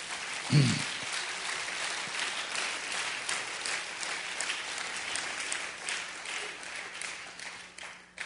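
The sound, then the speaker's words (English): An audience at a sermon claps their hands, a faint, even patter of applause that holds steady for several seconds before tapering slightly at the end. “Why don't you put your hands together and just make a little noise? Would you do that?”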